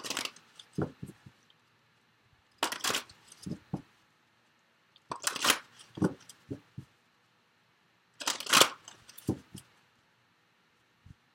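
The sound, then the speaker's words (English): Tarot cards being shuffled and drawn, heard as four separate bursts of crisp, papery riffling and tapping with short quiet gaps between them. No one speaks. “let me just go ahead and get the cards drawn.”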